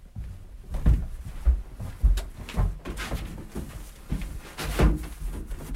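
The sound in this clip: Dull wooden knocks and bumps as a hatch under the doormat by a front door is opened. A series of uneven thuds sounds over a quiet background.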